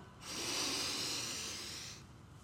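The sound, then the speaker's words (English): One deep breath is drawn in through the nostrils during a guided meditation, a soft, airy hiss that starts abruptly and holds steady for nearly two seconds before stopping, faint and alone. “we're going to breathe in together, feeling all of that beautiful air as it passes through your nostrils and fills up your belly deeply.”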